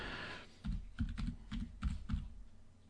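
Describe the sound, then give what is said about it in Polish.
Keystrokes on a computer keyboard as a message is typed: a quick run of several crisp clicks over roughly two seconds, then quiet, with no talk. “już mu piszę”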